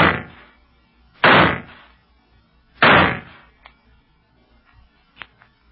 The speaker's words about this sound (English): Well, I have no choice but to fire a signal.